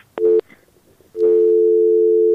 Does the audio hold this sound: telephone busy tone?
yes